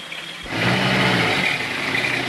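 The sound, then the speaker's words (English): The engine of a truck carrying soldiers rumbles as it stops at a gate. The broad, steady drone swells after a brief moment and then holds at a constant idle. “near Anton's fishing dock, a truck with seven soldiers stops at the gate.”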